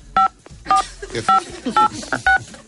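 Telephone keypad dialing tones sound as five short, crisp two-pitched beeps spaced roughly half a second apart over a faint background.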